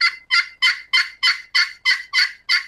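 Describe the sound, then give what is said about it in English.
A turkey call imitating a hen's clucks and soft yelps: nine evenly spaced, raspy, high notes in a steady rhythm, each with a sharp start and a quick fade, with no talk. “You just want to sound like a turkey, cluck and soft yelp.”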